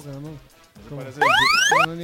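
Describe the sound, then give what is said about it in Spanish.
A voice imitates an alarm with a bright wailing tone that rises in pitch and lasts under a second. Other vocal sounds come before it. “Esa es la alarma.”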